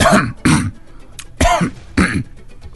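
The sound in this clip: A person performs a psychogenic cough as a demonstration: four loud, harsh, throat-clearing coughs with short pauses between them.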